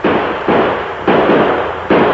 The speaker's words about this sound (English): I keep shooting, but they don't stop.